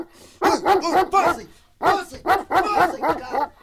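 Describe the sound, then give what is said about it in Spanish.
A dog barks in two quick bursts of several sharp, mid-pitched barks each, with a short pause between them. The barks are loud and stand alone without other sounds. “llama a tu perro, cuidado que me muerda.”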